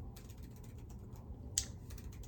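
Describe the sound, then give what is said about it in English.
Soft typing on a computer keyboard: a quick, uneven run of many faint clicking keystrokes, with one sharper click near the end, over a low steady hum. “let me Google it for you. I have the internet right here.”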